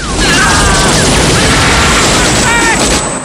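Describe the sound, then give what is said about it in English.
An explosion erupting during a battle produces a loud, sustained blast of roaring, rumbling noise that holds steady across the whole clip. “An explosion erupts.”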